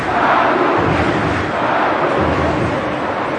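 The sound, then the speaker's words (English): Palmeiras football fans roar inside their 43,000-seat stadium in the Água Branca area, a dense, continuous wall of crowd noise with blended shouting and no break. “It holds 43,000 fans who generate an impressive amount of noise.”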